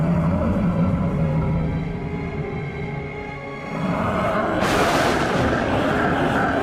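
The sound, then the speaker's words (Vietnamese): A loud explosion bursts out as three fighters drive their combined power into a clash. A sustained low roaring rumble builds, and then a sudden bright, crashing blast erupts near the end. “Và sau một lúc, tiếng nổ vang trời lập tức phát ra.”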